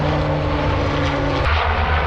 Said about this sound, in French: Les Canadair, ce sont ces appareils amphibies capables de puiser plus de 6000 litres d'eau